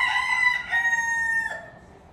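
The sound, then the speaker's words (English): A rooster crows once, a long, clear, steady call lasting about two seconds, among chickens in a territorial dispute as new birds are introduced. “So you will see territorial disputes when a new chicken's introduced.”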